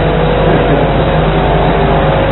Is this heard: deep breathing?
no